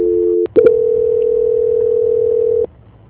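A steady, mid-pitched telephone tone plays during a call transfer. It breaks off briefly near the start, resumes as one loud continuous hum, and then cuts out abruptly.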